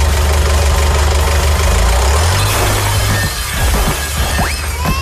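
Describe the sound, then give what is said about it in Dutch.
A forklift engine runs with a steady low drone, then its pitch rises as it revs and the truck moves off, with a rougher, busier rumble in the last seconds. “En dan rij ik er nog een keer overheen met die forklift. Ja, met die heftruck. Ja, dan moet je maar even starten.”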